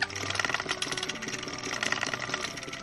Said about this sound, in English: No face, where did you learn to spin thread? You're really good at this.